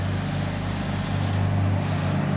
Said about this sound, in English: Looks like we're in luck. Is that a tow truck?